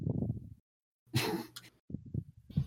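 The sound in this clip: Someone breathes heavily into a microphone, a rough, gusty rush of air flanked by muffled low vocal sounds, with a second shorter puff near the end.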